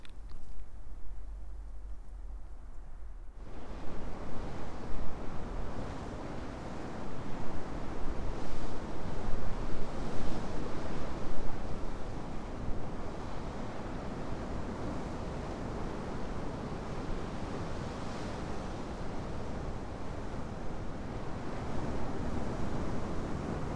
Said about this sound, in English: I think the wind might be dying down as well.